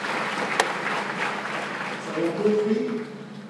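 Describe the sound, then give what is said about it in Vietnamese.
Applause from a group congratulating a man on his idea during a team presentation, a steady spread of many claps, with a voice talking over it near the end. “chúng ta cùng vỗ tay để chúc mừng cho anh nào”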